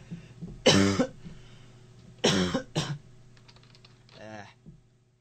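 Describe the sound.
Harsh coughing from someone who has choked on something going down the windpipe: three loud, rough bursts, the last two close together, then a quieter voiced throat sound, over a faint steady hum.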